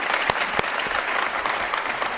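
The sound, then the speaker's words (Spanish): Applause from an audience after a live performance by a cultural group, a steady dense patter of clapping with a few sharper individual claps, moderately loud and without voices. “Vamos a dar un aplauso a los componentes”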